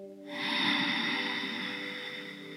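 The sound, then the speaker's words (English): A deep, slow inhale is drawn during a walking breathing exercise. The airy breath swells in softly and then holds steady and even for about two seconds, over a sustained, soft held tone. “As we walk, let's breathe together again. Inhale.”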